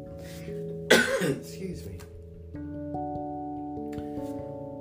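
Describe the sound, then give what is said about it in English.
One sudden cough, sharp and fairly loud, bursts out briefly over soft sustained background tones, trailing off into quieter breathy sounds. “excuse me for coughing. I'm so sorry. Kind of slipped out there.”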